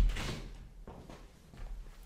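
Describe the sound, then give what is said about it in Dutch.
A window being pulled shut indoors: a soft sliding rush followed by a few dull knocks and thuds, fairly quiet and uneven. “Alright, ik geef even de raam dicht doen.”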